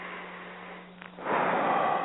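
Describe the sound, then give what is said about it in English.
A deep breath drawn in: after a quiet stretch with a faint low hum and a tiny puff, a broad airy rush starts about halfway through and holds steady to the end. “So I want to take a deep breath.”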